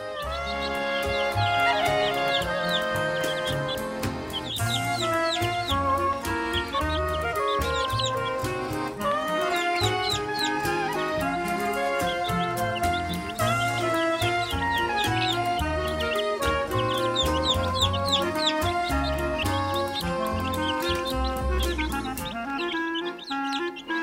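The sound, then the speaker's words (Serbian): Chickens cluck and chirp in a dense, steady chorus that goes on without a break, with sharp high calls repeated throughout. “Neka bude pilića bar za sad, od svakog deteta po jedan nasad.”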